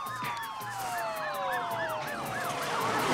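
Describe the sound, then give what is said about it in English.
Police car sirens wail in a steady rising-and-falling cycle as the vehicles approach, with sweeping tones overlapping and the loudness growing slightly toward the end, alone without talk. “Police cars are approaching the scene as Raoul punches Dave”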